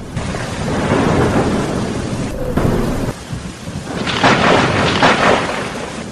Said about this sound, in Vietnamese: Ngoài cửa sổ vang lên tiếng sấm, ánh chớp trắng bạc tựa như thanh kiếm sắt chọc thủng bầu trời đêm, mưa to như trút nước